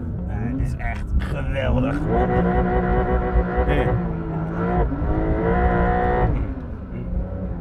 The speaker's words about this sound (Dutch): Uiteraard gaan we in een Porsche rijden.